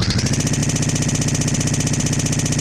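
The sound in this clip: Chainsaw sound effect being cranked up: a loud, steady engine drone running at an even speed with a fast, regular pulsing throb and no clear revving.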